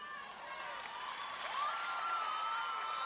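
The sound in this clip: A crowd applauding and cheering, steady continuous clapping with scattered shouts and whoops mixed in, holding an even level throughout.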